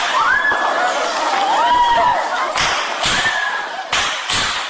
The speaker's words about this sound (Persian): این آن صدای فریادهای دانشجویان است که در جریان حمله به پوهنتون کابل ثبت شده است.